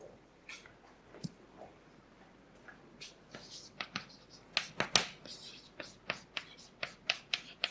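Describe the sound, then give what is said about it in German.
Someone writes something down by hand. Many quiet, scratchy strokes come in short bursts, sparse at first and then quicker and more regular toward the end. “Also, schreibe das einmal auf.”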